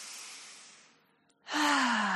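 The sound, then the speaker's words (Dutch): A deep breath in and out during a guided pelvic-floor relaxation exercise: a long airy breath fades to near silence, then a louder, fuller breath with a low voiced tone follows and holds steady. “Adem even diep in en uit.”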